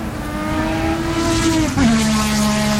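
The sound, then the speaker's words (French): Race cars at a motor racing circuit give a loud, continuous engine drone at a steady pitch. Near the end the pitch drops abruptly and holds lower. “Maison avec jardin, proximité circuit automobile.”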